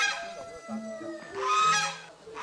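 Farm geese kept among a flock of chickens give a few harsh, nasal honks, fairly faint and overlapping, with no voices.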